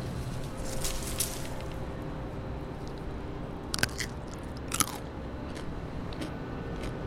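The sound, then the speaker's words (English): A few sharp, crunchy bites into a small, bite-sized cucumber that looks like a baby watermelon, with wet chewing between the bites over a low, steady background hum. “but they are actually a cucumber. And so they're like bite-sized individual portions. Perfect for the kids down at the Crabtree Corner. It's just like a fun sort of vegetable to eat.”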